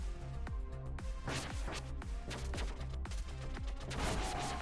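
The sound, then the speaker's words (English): Rapid gunfire from an enemy shooter in a video game cracks out in a fast, steady rhythm of many sharp shots, layered over continuous background music. “That will fail to take over to hit the guy who's shooting at me.”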